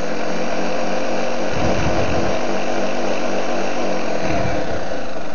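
A kitchen machine with attachments runs with a loud, continuous motor whirr and a rough, buzzing texture. Its low rumble briefly drops away twice while the motor keeps running. No voices are heard.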